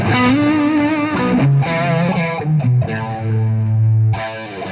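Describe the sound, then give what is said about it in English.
An electric guitar lead tone through a JHS AT signature distortion pedal plays a loud melodic line of sustained, bending notes, with no talk over it. “here is my main lead sound. Is just, I have a signature JHS pedal called the AT. It's the at sign, you know.”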